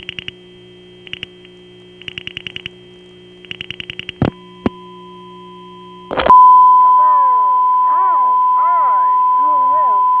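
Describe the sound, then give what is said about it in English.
Tones on a New York telephone line to a 780 number, matching the 9900-number tone: short bursts of pulsed beeps and a couple of sharp clicks, then a loud, steady tone with voices shouting through it. “That tone was recognizable as the same tone as on the 9900 numbers. It made conversation quite difficult, but people were still shouting through it.”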